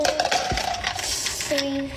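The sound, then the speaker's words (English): Ice cubes are dropped into a milkshake cup, giving a few faint clinks and rattles over a steady background hiss. “You want to put some ice in yours? Yeah. I'm going to put some ice in mine.”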